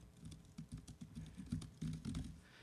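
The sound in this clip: Faint, quick typing on a computer keyboard, many light keystrokes tapped in an uneven run while entering text into an OpenSSL connection.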